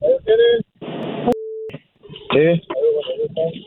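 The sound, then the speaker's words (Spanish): A telephone call connects on the line with a sharp click and a short steady tone, set between stretches of people talking. “Espérenme porque me está marcando. Ok, conéctalo.”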